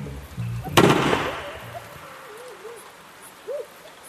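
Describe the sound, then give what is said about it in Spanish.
A single gunshot fired into the air gives one loud, sharp crack with a short decaying tail, followed by near quiet and a few faint, thin whistling tones. “Hace un tiro al aire y pone el arma en el piso.”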